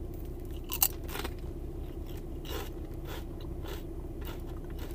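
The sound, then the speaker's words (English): Someone bites and chews orange, barbecue-flavored Bourbon Street Smoky Sweet potato chips, producing soft, irregular crunches spread across several seconds over a steady low hum, with no talk. “It's supposed to be, I guess, barbecue flavor. The chip is a very orange color, so let's go ahead and give these a try.”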